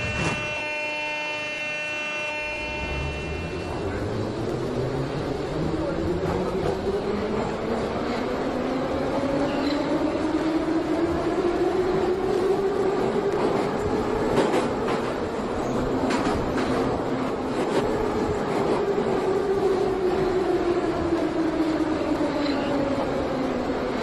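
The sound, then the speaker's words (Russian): Moscow metro train departing in a train-simulator video game. A brief tonal signal opens, then a steady rumble builds as the traction-motor whine climbs in pitch, levels off and slowly descends again while the train runs. “Осторожно, двери закрываются. Следующая станция Автозаводская.”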